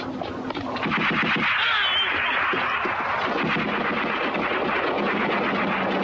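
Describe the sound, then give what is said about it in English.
Machine-gun fire from German soldiers in a radio drama battle scene, rapid bursts of shots within a dense, noisy mix that stays loud throughout. “It's packed with German soldiers, their machine guns blazing. When the truck stops, the Germans jump out and continue firing at the guerrillas.”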